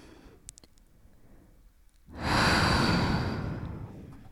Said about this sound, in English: If you want to take a breath with me, then take a breath with me.